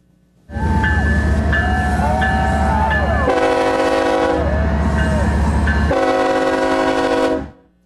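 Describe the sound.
A train runs along the rails, a steady, loud rumble and rattle throughout, broken by two long, sustained horn blasts, during a trip by rail toward Medora, North Dakota.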